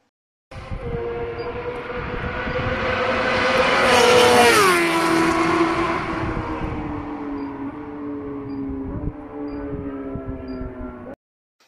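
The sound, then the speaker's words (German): A Fireblade sport motorcycle races along a race track, its loud, high engine note building and then dropping sharply in pitch as it passes, continuing steadily before cutting off. “lasse ich jetzt einfach mal so ein Fireblade auf der Rennstrecke da jetzt durch diesen Podcast rasen.”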